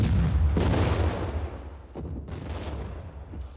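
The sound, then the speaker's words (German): Gunfire resuming, a few sharp shots cracking out over a steady low rumble of booming, with the loudest burst near the start and a couple of later reports. “Sie haben wieder zu schießen angefangen.”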